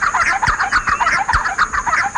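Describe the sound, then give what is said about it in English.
Raucous, rapid chattering calls of a giant wren, a large wren of Mexican and Guatemalan open woodland, repeating in a brisk, loud, continuous rhythm. “The largest of the wrens, the giant wren, is found only in a small area of Mexico and Guatemala.”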